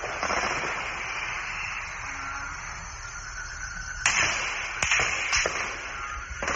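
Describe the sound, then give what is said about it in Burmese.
Gunfire from heavy weapons at night in Loikaw: a few sharp, cracking reports break through a low, hissing background after a quieter stretch. The shots are fairly faint overall. “လွိုင်ကော်မှာတင်းကနွေနဲ့ညကတနက်နဲ့ပစ်ခတ်ခဲ့တဲ့အတန်တွေကို Citizen Journalist အူရိုက်ကူးထားတဲ့ဗီဒီယိုထဲမှာတွေ့ရပါတယ်”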